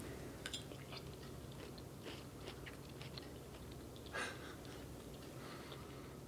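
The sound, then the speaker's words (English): Faint chewing and biting while tasting the meat in a wrap, a few soft crunchy bites scattered over a quiet background, with one slightly louder bite near the end and no talking. “I want to taste the meat that went in here.”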